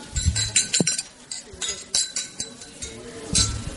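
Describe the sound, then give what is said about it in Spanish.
Glasses clink together in a toast, a few short, bright chinks scattered over a steady, busy background. “empecemos pues con un brindis por Esteban y por esta novela.”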